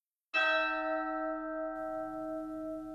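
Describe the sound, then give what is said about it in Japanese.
A single bell strike rings out and holds a rich, steady tone with bright overtones that sustain loudly for nearly three seconds. “鐘の音。”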